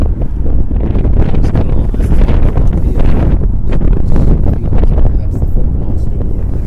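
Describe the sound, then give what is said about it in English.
Wind blows outdoors near Columbia University, buffeting the microphone in a loud, continuous low rumble with gusty, fluttering fluctuations throughout. “A little breezy here.”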